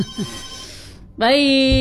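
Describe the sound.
A telephone ringing tone sounds during an outgoing phone call, entering partway through as a steady, bright, buzzy tone that holds loud to the end, after a brief stretch of faint voice.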